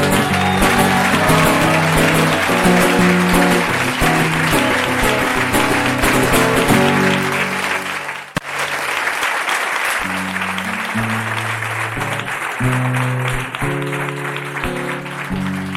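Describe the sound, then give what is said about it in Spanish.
Applause from an audience at a staged performance of songs: dense, steady clapping over sustained musical tones, loud throughout, with a brief dip just past the midpoint before it swells again. “Gracias. Gracias por vuestros generosos aplausos.”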